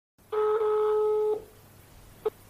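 Telephone tones as a call is dialed: one steady, electronic multi-tone beep lasting about a second, then a single short beep after a pause, over faint background hiss.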